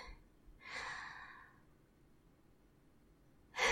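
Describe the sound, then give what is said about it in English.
A faint deep breath: one long, airy inhale, then quiet, and the sharp start of another breath right at the end. “Just take one deep breath for me.”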